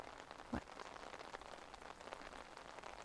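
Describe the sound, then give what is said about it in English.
Rain falls outdoors in a faint, steady patter with one slightly louder tap near the start. “Tell me, what's got you out here in the rain?”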